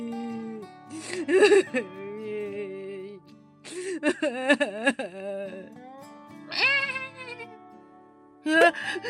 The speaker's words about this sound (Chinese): 是什么声音？这个声音，这个声音我认得，是小小羊，是小小羊的声音。